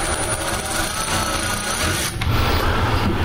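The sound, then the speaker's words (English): Whirring drive of a variable-speed power ratchet loosening an old bolt: a continuous loud mechanical buzz that briefly dips about two-thirds through, then returns slightly louder and rougher. “makes the ratchet, when I squeeze the lever, turn counterclockwise to loosen this old bolt. And this is variable speed”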